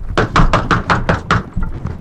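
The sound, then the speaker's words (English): Knocking and thumping from things being knocked over upstairs: a rapid, evenly spaced run of seven loud hollow knocks, followed by a couple of fainter thuds as the racket dies down. “You get upstairs, and you hear all of this noise going on, you know, things getting knocked over. All right, that's enough ruckus.”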